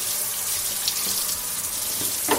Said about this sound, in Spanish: un día te metes en la ducha y el agua, pues no deja de salir fría.